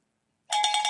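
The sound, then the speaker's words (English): A cowbell is rung in a quick, bright metallic burst of several rapid strikes. The ringing starts abruptly after half a second of silence and keeps going to the end. “The ringing of the cowbell, says Joey”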